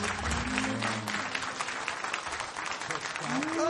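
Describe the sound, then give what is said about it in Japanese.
Applause in a radio studio: a faint, steady patter of clapping, with voices talking at the start and again at the end. “いやー、拍手してる”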